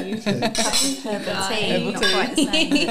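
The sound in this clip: Glasses clinking together in a toast, bright chiming clinks layered over lively overlapping voices throughout.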